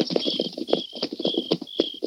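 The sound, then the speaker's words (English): Horse hooves clip-clop in a quick, steady rhythm as riders approach a small village across desert sage and mesquite flats. The beat is loud, even and repeated throughout, with no voices. “Tonto, ride up and grab Snyder's pony. Get him up, scout!”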